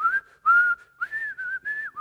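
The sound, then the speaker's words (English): A man whistles a tone-deaf tune alone: a string of several short, fairly high notes with small wavering pitch changes and brief gaps between them. “But he was notoriously tone deaf, and so he would whistle. I don't know if I can whistle now, there's a lot of pressure, but he would do something like,”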